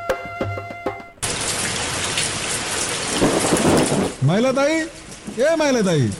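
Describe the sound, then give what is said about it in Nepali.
Heavy rain pours down in a dense, loud, continuous hiss with a low rumble of thunder. It lasts a few seconds before other sounds cut in. “पानी त धेरै ठुलो पर्यो”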